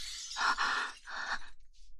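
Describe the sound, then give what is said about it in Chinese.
Glass shattering as a mirror is smashed: two bright, crashing bursts in quick succession, the second slightly weaker, then a faint, thin scatter of tinkling fragments fading out. “居然打碎了我的镜子！”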